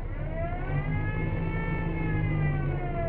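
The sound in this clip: An old car engine runs after starting, giving a steady, low droning rumble with a thin whining tone above it, even in level and fairly quiet throughout.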